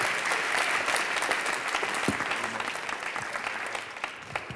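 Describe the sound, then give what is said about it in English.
Audience applause welcoming a pastor to the stage at a church service: a dense, steady wash of clapping that holds at an even level for the whole stretch, with no voices standing out. “Let's put a warm hand of appreciation and welcome for Pastor Jordan Durso.”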